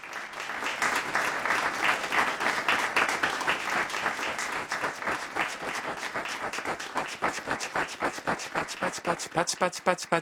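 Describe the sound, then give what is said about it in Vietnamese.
Clapping applause, the sound the Japanese word pachi-pachi imitates: a dense, steady patter of many hands that thins toward the end into separate, evenly spaced claps, with talk present. “Đây là một từ tượng thanh dùng để diễn tả tiếng vỗ tay.”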